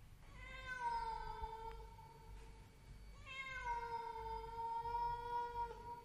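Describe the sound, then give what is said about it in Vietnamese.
A cat meows mournfully: two long, drawn-out wailing meows with a steady pitch, fairly faint and heard alone. “Cùng lúc ấy có tiếng con mèo ở đâu kêu lên nghe thê thiết.”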